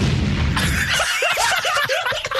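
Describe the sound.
A bomb explosion sound effect bursts as a loud, broad roar that holds for about a second and then breaks into rough, crackling rumbles that fade.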